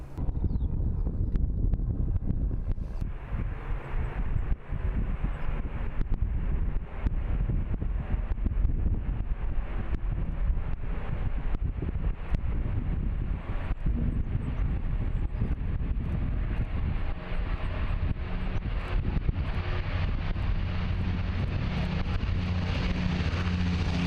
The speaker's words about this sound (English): He's just taxiing now. CFHMJ waits for clearance.